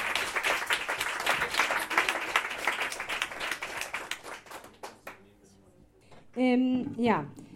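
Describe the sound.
Audience applause for a performer taking the stage. Brisk, full clapping for about five seconds thins out to a few stray claps before a voice begins speaking.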